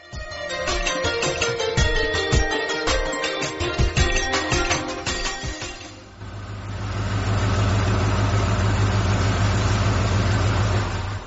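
A car pulls up and its engine idles: a few seconds of dense rattling clatter, then a loud, steady low drone that holds to the end. No one speaks.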